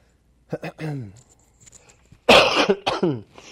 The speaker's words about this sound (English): cleared my throat